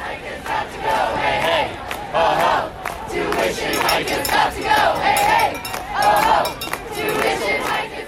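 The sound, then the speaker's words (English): Student protesters chant during a classroom walkout in Montreal over planned tuition hikes at English-language universities. The crowd's voices rise and fall in a repeated rhythmic chant, loud and dense throughout. “This is the sound of student protesters in Montreal today, taking part in a classroom walkout in response to the Quebec government's plans to hike tuition at English language universities.”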